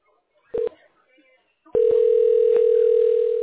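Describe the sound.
Telephone tone during a call transfer to a representative: a short beep, a pause, then a loud, steady, unbroken tone that holds to the end.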